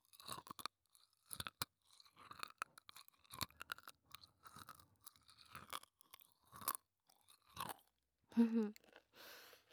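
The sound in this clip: Crunchy chocolate, tiny granules packed in a plastic container, is chewed with many quiet, crisp crunches that come in irregular bursts.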